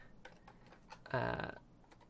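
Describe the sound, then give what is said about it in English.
Faint typing on a computer keyboard, a scattering of light, irregular key clicks, with a short, louder tonal burst breaking in midway. “I can never type. You'd think I would type better, given that that's been my job for over a decade.”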